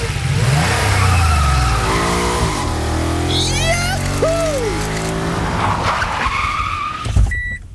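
Car accelerating hard past a speed camera on St.-Jürgener Straße in Schleswig, a 50 km/h town street. The engine roars loud and continuous, with revving harmonics shifting in pitch throughout.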